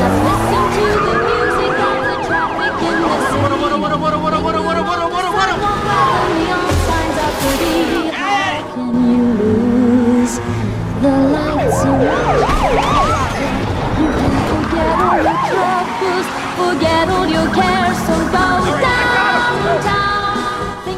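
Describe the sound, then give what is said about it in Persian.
Rhode Island police car sirens wailing loudly and continuously, with rising and falling tones overlapping amid traffic noise for the whole stretch. “وای اونا پلیسای رود آیلندن. تو ایالت خودشون هیچ خبری نیست. چجوری به این سرعت رسیدن اینجا؟ اول اونا رسیدن به صحنه.”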